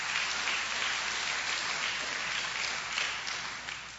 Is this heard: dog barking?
no